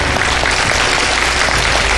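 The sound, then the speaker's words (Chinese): Loud, continuous audience applause for an honored elderly guest, a dense, even clatter of many hands with no pauses. “我们把掌声和敬意送给林老”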